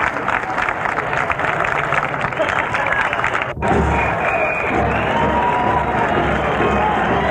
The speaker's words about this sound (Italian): Tens of thousands of gays marched down Market Street today, the 8th annual Gay Freedom Day parade.